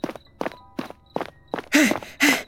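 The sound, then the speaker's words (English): Footsteps walking slow and steady, heard as a regular series of short, soft thuds about every half second, followed by heavy voiced breaths near the end. “Just turn around and keep walking, slow and steady.”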